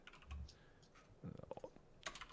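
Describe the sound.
Keys on a computer keyboard tapped out while typing a web search: a dull thump, then a quick burst of many crisp clicks and a final short flurry of taps, all fairly faint.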